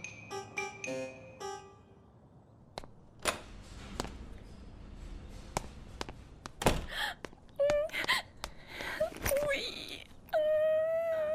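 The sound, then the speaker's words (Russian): A woman cries and wails beside a hospitalised man with bandaged legs. Her sobbing moans and whimpers rise in pitch, broken by gasps and a few soft thuds. “ну не плачь, я живой.”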